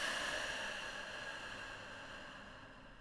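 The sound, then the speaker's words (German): A slow breath during a guided breathing exercise, drawn in through the nose and let out through the mouth. It comes through as a soft, airy hiss that fades gradually over about three seconds. “atme vielleicht mit mir nochmal tief ein durch die Nase. Durch den Mund aus.”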